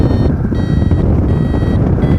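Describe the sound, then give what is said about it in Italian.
Variometer beeping while climbing in a thermal: repeated high electronic beeps pulse in short bursts under loud, rushing wind noise that nearly drowns them. “adesso sto cercando di salire, siamo un po' in termica, senti c'è il bip bip del variometro,”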